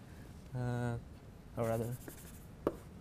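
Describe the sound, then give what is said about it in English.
Writing by hand, with soft scratchy strokes between brief voiced sounds from a person. “So let's actually write it down.”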